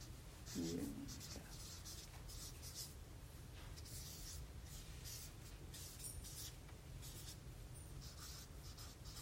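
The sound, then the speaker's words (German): Writing on a board makes faint scratchy strokes, a series of short, soft scraping marks in an irregular rhythm, with a brief low voice near the start. “Ich schreibe da die Jünger dazu.”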